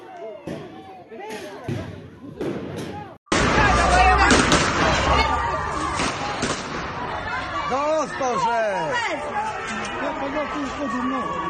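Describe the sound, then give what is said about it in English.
Gunfire as people shoot at recruiters, sharp cracking reports mixed with loud crowd chatter and shouting voices, a sudden loud surge after a short quieter stretch that carries on under the voices. “Here we have them shooting at the recruiters.”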